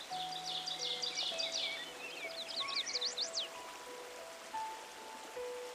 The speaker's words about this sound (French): Et là, quelque part, tu entends couler de l'eau.